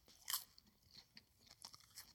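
A crunchy pickle is chewed: a few faint, crisp crunches, the first one sharpest and loudest, followed by softer irregular bites and chews.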